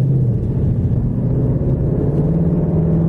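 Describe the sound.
Engine rumble from a Ford Mustang with a 10-speed automatic gearbox: a deep, loud, steady drone that stays alone throughout, its pitch rising slightly toward the end.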